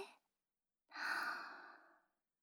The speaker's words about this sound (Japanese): はーい、吸って、吐いて、吸って、